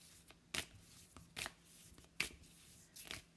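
A deck of oracle cards being shuffled: four crisp, papery shuffling bursts at a fairly even pace, with softer flicks between them, faint and with no talk.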